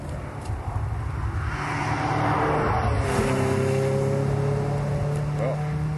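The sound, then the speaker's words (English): Engine drone of a Ferrari 308 GTB, a 2+2 sports car with a V8, a sustained, fairly loud tone that holds steady with a faint shift in pitch toward the end. “Ferrari 308 GTB. That's it.”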